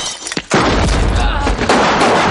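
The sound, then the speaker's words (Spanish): Gunfire erupts during a shootout inside a house in a 1997 crime film, as two criminals are shot down: after a brief quieter moment, a loud, rapid burst of shots runs without a break to the end. “El compañero de Esli y dos delincuentes caen abatidos. Esli mata al tercero y dispara a Ray que huye corriendo.”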